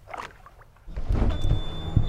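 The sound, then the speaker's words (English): A boat motor starts: a brief knock, a short lull, then the engine catches and holds a steady low rumble to the end. “I'm glad the motor started.”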